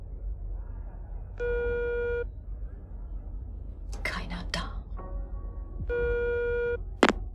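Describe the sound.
A telephone ringing tone sounds on the line: two long, buzzy, steady tones separated by a pause filled with brief rustling and clattering noise, with a sharp click near the end.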